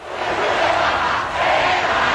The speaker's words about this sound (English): Thousands lining the streets of Spain to welcome Pope Leo XIV. Local authorities in Madrid saying more than 500,000 gathered for this event in the city center.